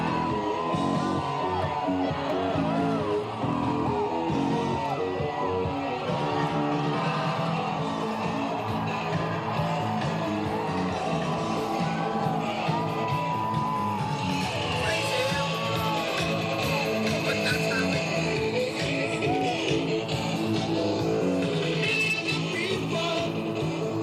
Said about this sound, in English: Here's the sound of the crowd and music from the parade.